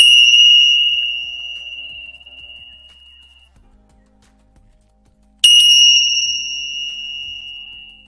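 A small bell is struck twice, each strike giving a bright, high, pure ringing tone that sounds loud and then fades slowly over several seconds, with silence between the two strikes.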